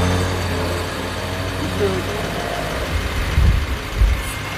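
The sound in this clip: Idling truck engine from a debris removal trucking fleet: a steady, low diesel-like rumble that holds even throughout, with a couple of slightly louder throbs near the end.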